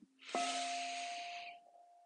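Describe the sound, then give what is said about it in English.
A single deep inhale through the lungs during a guided breathing exercise, one long airy rush of breath lasting over a second, over a faint steady tone. “by breathing deeply into your lungs Inhale”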